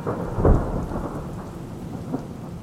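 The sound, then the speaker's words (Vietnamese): A thunderstorm with rain: one deep thunder rumble swells early over a steady, dense hiss of heavy rainfall, which keeps pouring evenly to the end with no voices. “Trên trời mưa cũng không còn rơi, tiếng sét cũng dừng hẳn”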